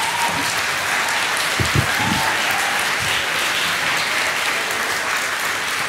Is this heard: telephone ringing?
no

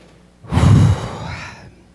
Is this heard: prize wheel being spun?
no

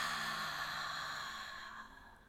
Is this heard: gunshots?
no

